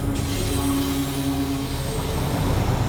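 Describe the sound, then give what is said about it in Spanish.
A train passing by, heard as a loud, steady rumble of rolling wheels with thin, high squealing tones over it that fade out near the end, with no talk. “Vamos a dejar que pase el tren porque no da tiempo.”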